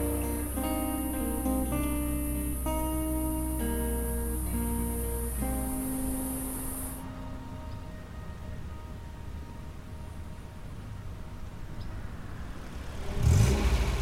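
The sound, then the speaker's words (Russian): Engine drone of a white Mercedes car driving between field hills, a steady sustained hum that thins out partway through and then swells briefly louder near the end, with no voices. “Белый Мерседес едет между полевыми холмами.”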